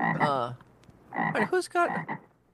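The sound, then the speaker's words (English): A frog croaks in two bursts: a pulsed, rasping call, then a brief pause and a longer cluster of throaty, rattling croaks, clear and fairly loud. “It's a frog. Come on. It's all about frogs.”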